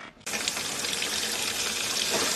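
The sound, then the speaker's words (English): Water gushing from a home faucet, in a scene about fracking and gas seeping into tap water; after a brief quiet start, a loud, even rushing stream takes over and holds steady to the end. “If you've ever heard about water faucets that light up from seeping gas, chances are the reference is to a famous or infamous scene in the film.”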